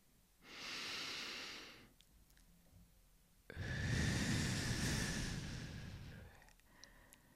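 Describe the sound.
Close breathing into a microphone: two long, airy breaths separated by a quiet pause, the first softer and the second a louder, fuller exhale, with no talking.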